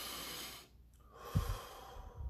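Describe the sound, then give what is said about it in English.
Slow, deep breathing: two long, airy breaths separated by a brief pause, soft and quiet with no talking. “Breathe with me.”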